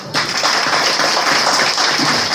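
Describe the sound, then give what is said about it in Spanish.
Audience applause at a political gathering honoring women: a dense, steady wash of clapping that begins abruptly and holds at an even, fairly loud level to the end. “Eso nomás, si me permiten, darle un aplauso”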